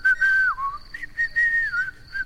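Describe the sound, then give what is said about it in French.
A person whistling in a dramatized story: a clear, bright tone held and then gliding downward, followed by a few short notes, another sustained note that dips, and a final brief chirp, with no talk. “Et moi, je siffle. Écoute.”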